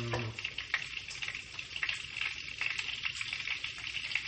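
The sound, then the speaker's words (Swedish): Butter sizzling in a hot frying pan, a steady bright crackling hiss with tiny pops scattered throughout, holding an even level from start to finish. “när det här smöret har tystnat så är det dags att gå in med grejerna”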